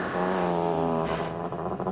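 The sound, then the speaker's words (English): Low, rumbling growl of an English bulldog, continuous and steady throughout with a slightly wavering, throaty texture and no talk. “found herself face to face with an English bulldog. The dog's heavy jowls quivered as he licked at his lips. She froze. Amos, you be quiet now.”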